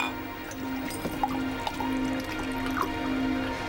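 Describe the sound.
Beer pours into a glass with no foam forming: a steady liquid wash runs throughout, broken by a few small drip-like splashes.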